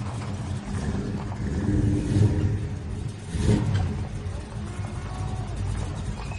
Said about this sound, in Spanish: Después, Alex abre el portón del patio. Arquímedes entra conduciendo el coche.